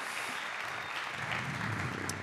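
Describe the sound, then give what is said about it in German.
Audience applause at a stage event rises as dense, even clapping, sustained at a fairly faint, steady level throughout. “Ein Applaus für Moritz. Moritz, ohne den hier nichts funktionieren würde.”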